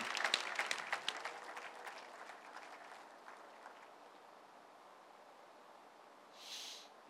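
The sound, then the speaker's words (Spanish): Congregation applause at a Christian worship service: dense clapping at first that thins out and fades away over about three seconds, leaving near quiet, then a brief soft rush of noise just before the end. “Si va a aplaudir, hágalo fuerte, porque es para el Señor.”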